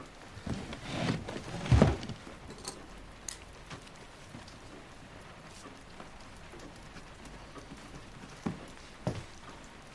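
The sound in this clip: Rain falls steadily in a courtyard, a constant soft hiss with a few heavier knocks and thuds, mostly early on and again near the end.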